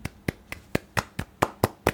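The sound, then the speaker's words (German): Short applause from one pair of hands: nine crisp, evenly spaced claps in a steady, quick rhythm, fairly faint and with no talk over them. “Und wir müssen jetzt eine kurze, also wir müssen kurz mal feiern. Ein ganz kurzer Applaus, warte.”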